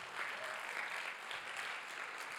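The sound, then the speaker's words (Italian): Faint, steady applause at a Sunday church gathering, a dense, unbroken patter of many hands clapping at an even level throughout. “facciamo un applauso alla regia che mi segue”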